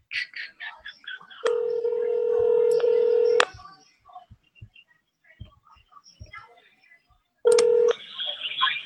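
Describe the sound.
Telephone tones while placing a call: one long steady tone lasting about two seconds, then a second, shorter tone, with soft murmured voices and faint handling noises between them.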